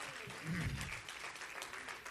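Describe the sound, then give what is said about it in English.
Church audience clapping hands in praise, a steady wash of applause that fills the whole short moment at an even, moderate level. “I think you ought to give Jesus a hand clap of praise here.”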